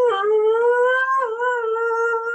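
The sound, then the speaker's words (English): A human voice imitates a dog howling along to a harmonica solo, one long, sustained, wavering howl with a brief dip partway through before it carries on. “all of a sudden this dog would start going,”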